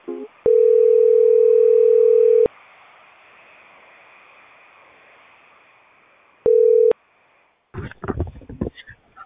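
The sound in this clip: A telephone line tone sounds after a call drops in a power outage: a loud, steady, low tone holds for about two seconds, a quiet hiss follows, then a shorter burst of the same tone, and finally some handling noise.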